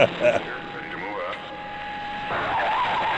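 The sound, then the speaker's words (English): A Batmobile takeoff effect gives a sustained jet-like engine roar with a steady high whine running through it, staying loud and even throughout. “The longest Batmobile takeoff I've ever heard in my life.”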